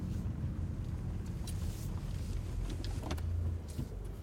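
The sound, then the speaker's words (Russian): A car braking and parking: a quiet, steady low engine and road rumble runs throughout, with a few faint higher clicks above it. “Она тормозит, а затем паркуется.”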